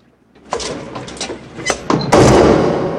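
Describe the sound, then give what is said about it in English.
A door being closed behind people entering a building, with a few light shuffling and handling sounds followed by a loud thud as it shuts and a brief noisy rumble afterward. “ducks in, and closes the door behind them.”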